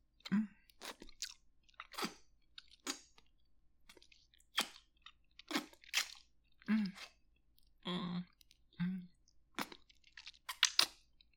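Someone chewing an early breakfast makes faint, wet crunching and smacking bites that come in many irregular bursts separated by short quiet pauses.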